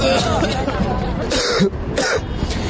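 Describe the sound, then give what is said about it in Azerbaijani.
Young protesters lying on the ground in a university courtyard cough and clear their throats. Several rough, scattered coughs overlap with a murmur of voices in the background. “Gənclər Tibb Universitetinin həyətində uzanıb öskürməyə başlayıblar.”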